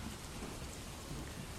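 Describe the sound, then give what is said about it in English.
Steady rain falls in a video game, a continuous, fairly quiet hiss of drops with no breaks and no talk. “Is that rain, is it? Yeah. I thought it was. Rainy mood.”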